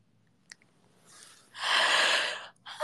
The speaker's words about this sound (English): I think I pulled a muscle yawning.